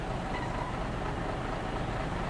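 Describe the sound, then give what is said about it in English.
Engine rumble and road noise of a double-decker bus, a steady, even drone that holds at a constant level throughout, with no distinct events. “Hey, was soll das? Doppeldecker!”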